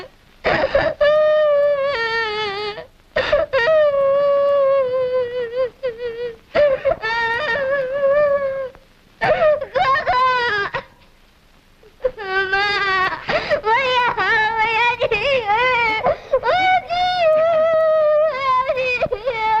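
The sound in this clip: A child cries and wails in a drama scene, in long sobbing bursts that rise and fall in pitch, broken by short pauses over about twenty seconds.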